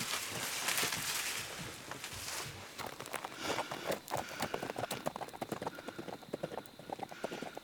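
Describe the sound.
A horse's hooves clatter in many quick, irregular clip-clop beats as the animal moves off. The hoofbeats are fairly faint but steady throughout, with no talk over them.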